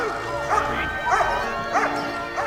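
An Alsatian on a lead barks outside a tenement building as soldiers lead families away. Four evenly spaced, fairly loud barks rise above a steady background rumble.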